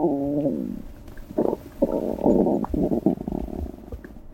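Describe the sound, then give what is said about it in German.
Gurgling and rumbling from a human digestive tract, heard alone in several uneven bursts. The watery, bubbling sounds are low and loud, separated by brief quiet gaps, with a longer run of gurgles toward the end. “Unser Innenleben ist ganz schön laut, wenn man genau hinhört. Es gluckst und gurgelt.”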